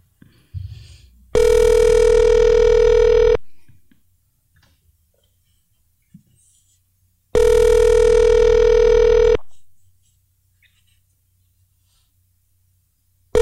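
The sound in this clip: A telephone rings twice, each ring a long, buzzy, steady tone lasting about two seconds, separated by a few seconds of near-silence with faint rustling.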